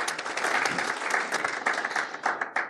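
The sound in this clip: Audience applause welcoming guests onto a panel at a foreign-affairs discussion event: dense, steady clapping that fills the whole moment at a fairly even loudness, with no talk over it.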